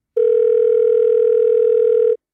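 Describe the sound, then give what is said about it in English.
A telephone sounds with a single loud, steady electronic tone held for about two seconds and then cut off cleanly, with no voices. “10 minutes later, the phone rang again.”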